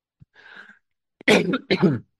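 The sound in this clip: Coughing and throat clearing by one person: a soft, strained rasp first, then two loud, harsh bursts in quick succession.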